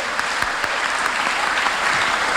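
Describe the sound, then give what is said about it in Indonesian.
An audience applauds people who succeeded after a hard struggle. Many hands clap continuously in a dense, even wash of sound, with occasional sharper claps standing out. “Mari kita beri aplaus buat mereka.”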